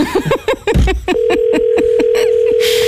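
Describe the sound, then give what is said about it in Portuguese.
A steady ringback tone from an outgoing telephone call, one even buzzing tone lasting about one and a half seconds, heard after a short stretch of talk. “Está a chamar? Um toque.”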